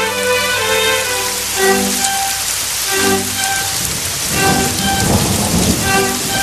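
Steady, heavy rain falls with low thunder-like rumbles swelling a few times, all under a musical backing of sustained tones.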